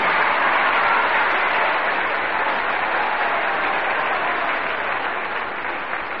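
A studio audience applauds a singer in a talent contest. The dense, even wash of clapping stays loud throughout and eases off slightly toward the end.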